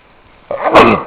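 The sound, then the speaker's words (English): A single sneeze during a biology lecture: a sudden loud burst of breathy noise that swells and then trails off, rising out of faint background hiss. “Uh-oh, I have a sneeze.”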